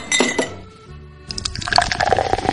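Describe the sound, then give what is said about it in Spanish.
Egyptian beer is poured, with a burst of splashing liquid, a brief lull, then a continuous bubbly, gurgling pour with faint glassy clinks. “Vete sirviendo estas cervezas que ha traído Batir. ¡Oh, qué maravilla! Eh, cerveza egipcia.”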